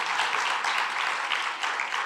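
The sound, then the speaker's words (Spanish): Applause from a church audience during a service, a fairly faint, steady wash of many hands clapping that runs without a break and has no voices over it. “Ese aplauso estuvo muy desabrido, hermano. Déselo al Señor, que Él se lo merece.”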